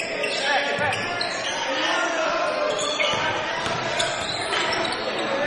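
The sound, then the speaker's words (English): A basketball is dribbled on the court during a game. Its bounces blend into a dense, steady wash of crowd noise, with a commentator talking over the action throughout. “Keeps the dribble.”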